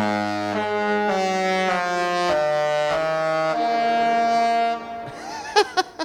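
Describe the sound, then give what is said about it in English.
A Disney cruise ship horn plays a melody of loud, sustained, deep tones that step between notes for about five seconds, then fades. A few short, sharp sounds follow at the end. “So that was like Disney's horn.”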